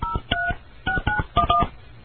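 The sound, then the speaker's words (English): Touch-tone telephone keypad beeps as a number is dialed: a quick, uneven series of short electronic tones in small clusters separated by brief pauses, heard alone. “I dialed the wrong number that time”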